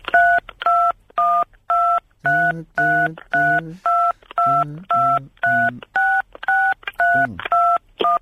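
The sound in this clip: A touch-tone telephone dials a long number as a rapid, evenly paced run of many short beeping tones. A voice talks faintly beneath several of the beeps.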